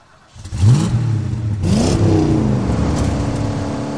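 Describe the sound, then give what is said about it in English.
A car pulling away hard across a highway, its rear wheels spinning and fishtailing in loose dirt: the engine revs loudly with its pitch climbing, then settles into a sustained, steady roar as it gathers speed. “She was gone, the rear wheels spinning in the loose dirt, fishtailing across the highway before gathering speed.”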